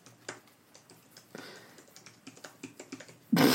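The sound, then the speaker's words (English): Typing a comment on a computer keyboard: many quick, light key clicks in an uneven rhythm, with a louder burst of noise at the very end. “I just wrote that as a comment in somebody else's post.”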